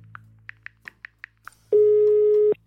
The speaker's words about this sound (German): Schau mal, hier ist auch eine Telefonnummer. Sollen wir gleich mal anrufen?